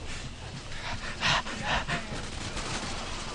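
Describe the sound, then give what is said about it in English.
Gunfire from a video game shooter, heard as two bursts of sharp cracks rising out of a steady, noisy wash of game sound. “You're supposed to find cover. I was trying to find cover. You're shooting someone that was reloading, not shooting at you.”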